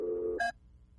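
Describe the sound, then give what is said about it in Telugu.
Telephone line tones sound as a caller phones in: a steady low tone lasts under half a second, then a brief, brighter higher tone cuts off abruptly, leaving near quiet. “ఒక నిమిషం ఆగండి ఇంకొక శ్రోత phone చేస్తున్నారు”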